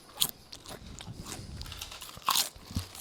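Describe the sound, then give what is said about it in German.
Someone crunches limited-edition tomato and herbs flavoured potato crisps close to the microphone, with a few loud, sharp bites between softer chewing and crackling. No one talks. “Das ist sogar Chips am Mikro.”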